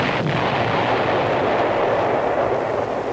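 Bomb explosions like wartime artillery merge into a continuous, heavy rumbling roar, loud and steady throughout with no distinct individual blasts.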